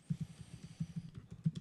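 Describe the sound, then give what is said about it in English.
Keystrokes on a keyboard, a rapid run of soft, dull taps in a loose, uneven rhythm, faint and alone with no talk. “I can't type for shit. All right, I got the note.”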